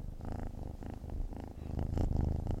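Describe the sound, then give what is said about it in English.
A kitten purrs in a steady, continuous low rumble with a faint rhythmic pulse. The purring carries on unbroken for the whole stretch, with no talking over it. “Oh, God, listen to that kitten. Should we put your microphone to it?”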